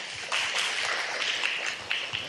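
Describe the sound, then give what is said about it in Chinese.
Audience applause welcoming a speaker at a Buddhist gathering: dense, steady clapping that holds at an even level from start to finish. “掌声欢迎”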